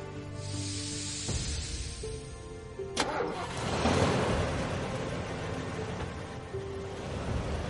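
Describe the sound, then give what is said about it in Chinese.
Engines of five buses pulling away and driving off, a steady broad rumble that swells for a few seconds midway and then holds at a constant level. “任小素望着5辆大巴车远去”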